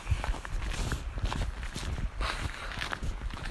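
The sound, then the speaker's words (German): Footsteps of a person walking along a narrow gravel path between meadow and woods: a steady stream of crunching steps, evenly paced and fairly quiet, with no talk. “Ich laufe und laufe und laufe und laufe.”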